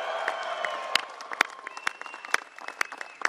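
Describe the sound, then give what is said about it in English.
An audience at the White House applauds steadily to welcome the world champion Cleveland Cavaliers basketball team, a dense wash of clapping marked by a few sharper, louder claps. “Welcome to the White House and give it up for the world champion Cleveland Cavaliers.”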